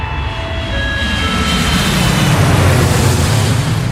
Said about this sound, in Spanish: Abróchense los cinturones porque estamos a punto de despegar.